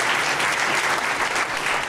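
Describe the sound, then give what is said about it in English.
Audience applause thanking the event helpers: dense, steady clapping from many hands that holds at an even level for the whole stretch, with no talking over it. “You all clap for us, so please clap for them just so that they know.”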